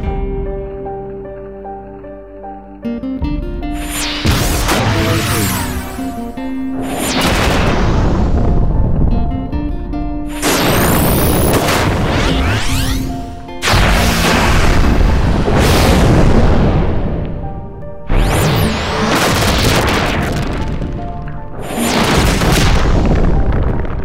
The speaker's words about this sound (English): And so we here at Limit Break Radio give to Wee Willie and Kaga the 21 weapon skill salute.